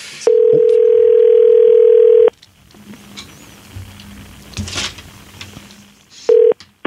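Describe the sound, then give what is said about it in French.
A steady telephone dial tone holds for about two seconds before cutting off. Faint handling noise follows, then a short dialing tone sounds near the end. “On l'appelle tout de suite. Elle s'attend à faire une entrevue, donc elle attend notre appel.”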